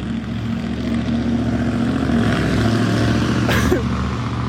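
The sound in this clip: A loud car drives past, its engine giving a broad, rough, continuous roar that sounds abnormal, as if the car has a fault. The drone holds steady for the whole stretch.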